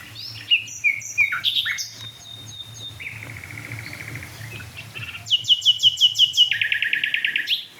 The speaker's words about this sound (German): Vielleicht halte ich noch einmal drauf auf die toten Eichen. Ja, Nachtigall.